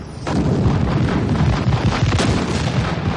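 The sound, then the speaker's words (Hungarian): Artillery battery firing in a radio drama battle scene: a sustained rumbling roar of booms that starts abruptly and continues without a break, with no voices. “Középen visszavettük a sáncerődöt. Az üteg újra tüzel.”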